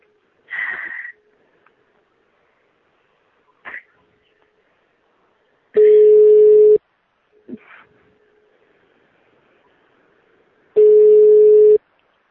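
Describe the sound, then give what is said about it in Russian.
Telephone busy tone after a dropped call: two long, loud, steady beeps separated by a pause, with a few brief, faint sounds before and between them. “Сейчас еще раз наберу, от второго дыхания скажите, сейчас звоню.”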